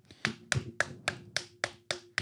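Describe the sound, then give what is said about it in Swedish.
A small round of applause made of eight evenly spaced, crisp hand claps at a slow, steady tempo, each one sharp and bright, with quiet gaps between them. “Så det är en liten applåd till honom där tycker jag.”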